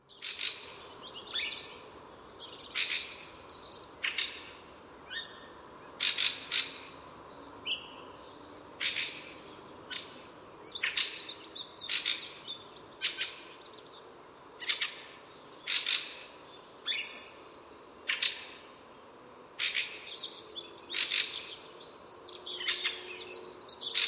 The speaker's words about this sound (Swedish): Björktrast.